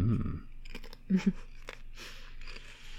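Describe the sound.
Mouth sounds of someone chewing sweet, tart candy: soft wet chewing with a few brief crunchy clicks, including two louder bites close together midway, under low, steady background noise.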